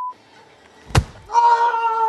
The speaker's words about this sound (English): And that punch was the sound of the Ted Danson character hitting the ghostwriter really hard, maybe breaking his nose.